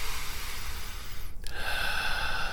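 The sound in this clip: A deep cleansing breath, long and airy, with a breathy, noisy rush of air that shifts partway through; steady and fairly soft, with no talk.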